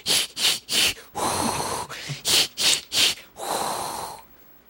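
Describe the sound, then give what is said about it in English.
Acted gasping and heavy breathing from a person pretending to struggle for air: clusters of quick, sharp, snorting gasps alternate with longer, rasping drawn breaths, fairly loud and with no talk over them. “Oh, it's so hard to breathe. It's hard to breathe because I'm acting that I can't breathe.”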